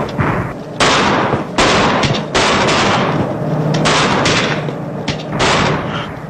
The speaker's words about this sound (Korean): 저기 놈들 있습니다. 발사 시작!